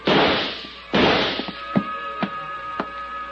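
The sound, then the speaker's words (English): An ashtray tossed across a barroom lands with two loud crashes in quick succession, followed by a few smaller knocks as it bounces and settles. A thin ringing tone lingers beneath the impacts. “Then my hand touched an ashtray at the end of the bar. I picked it up and tossed it toward the center of the room.”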